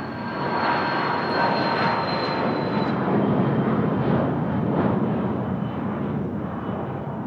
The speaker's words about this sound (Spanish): esa misma tarde toma un avión privado rumbo a la capital serbia.